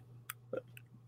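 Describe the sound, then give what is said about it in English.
Faint, sharp clicks from a computer mouse, a few isolated taps spread out over a second, alone over a low steady hum. “Let me click on the right thing.”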